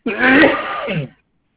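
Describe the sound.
A single throat clearing of about one second: a rough, gravelly rasp that swells and then cuts off into silence.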